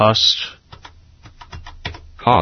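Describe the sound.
Typing on a computer keyboard into a spreadsheet cell. A quick run of many light key clicks sits between short bursts of talking at the start and end.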